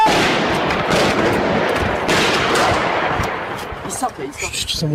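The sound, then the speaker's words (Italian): Kalashnikov rifle gunfire during an armed attack in Paris, taken from an amateur recording: many rapid, sharp shots merge into dense, loud bursts that ease slightly toward the end. “Questi sono gli spari con i fucili Kalashnikov da parte di questi attentatori”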